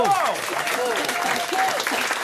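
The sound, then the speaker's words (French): Studio audience applause on a French-language quiz show, a dense, steady patter of many hands that holds through the whole stretch, with a voice heard over it. “Est-ce qu'on peut, s'il vous plaît, applaudir quand même ?”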